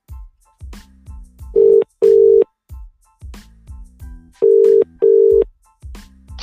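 Telephone ringback heard after a button press to place a phone-in call: two loud cycles of paired steady buzzing rings, spaced apart, over softer low pulsing sounds, with no talk.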